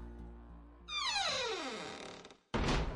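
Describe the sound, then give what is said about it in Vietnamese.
A large entrance door of a haunted house swings shut: a long squealing creak falls in pitch, then a heavy, loud thud as it closes. “Cửa lớn đóng lại, thoáng chốc ánh sáng trở nên lờ mờ.”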